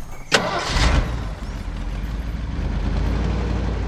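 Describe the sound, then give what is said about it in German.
A truck engine starts, the truck carrying a gold-washing plant on its bed: a sharp click, a short cranking burst, then a steady low idling rumble that carries on to the end. “Onkel Titus konnte mit seiner Goldwaschanlage auf der Ladefläche nicht sehr schnell fahren.”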